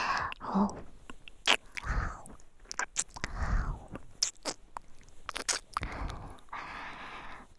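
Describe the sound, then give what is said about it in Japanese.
Soft, wet kissing smacks repeat irregularly, close and intimate, with breathy mouth noises and faint squishy lip sounds between them, all at a low level. “キスしてるだけで私も気持ちいい。”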